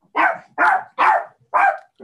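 A dog barks four times in even, sharp, mid-pitched bursts about half a second apart, with the start of a fifth bark cut off at the end.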